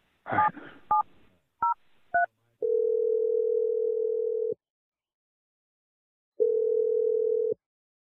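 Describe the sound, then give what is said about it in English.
Telephone keypad tones as a number is dialed: a few short, crisp dual-pitched beeps in quick succession, followed by two long, steady, loud tones separated by a silent gap. “Now we're going to dial the number.”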